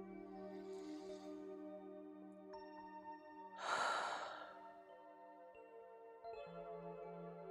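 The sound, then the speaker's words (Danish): A single slow exhale during a guided relaxation: a breathy, fairly loud rush that swells and fades over about a second over soft, steady sustained tones. “Og udånding på et slip. Afspændt og rolig.”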